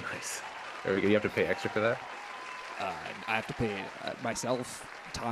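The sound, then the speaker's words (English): Enthusiastic applause added as a sound effect, a steady wash of clapping running beneath people talking throughout. “I will put in a layer of enthusiastic applause.”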